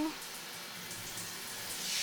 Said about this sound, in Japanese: じゃあ、シャワーでヘッドスパのオイル流しちゃうね。